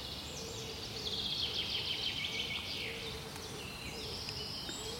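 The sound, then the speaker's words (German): Faint birdsong in a forest, with a few high chirps and thin trills drifting over a steady background hiss, quiet and unhurried throughout. “Die Vögel sind natürlich alle schon längst aufgewacht.”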